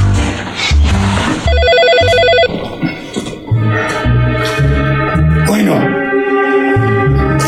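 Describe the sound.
A telephone rings in short repeated bursts over loud background music.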